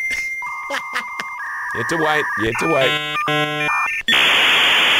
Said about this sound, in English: whenever you wanted to connect to the internet, the Internet Explorer, yes, this is the sound you heard before you connected to Internet Explorer.